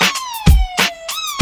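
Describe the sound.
Police siren wailing in a steady electronic tone that slowly sinks in pitch, then jumps back up near the end. Heavy low thumps punch in beneath it a few times.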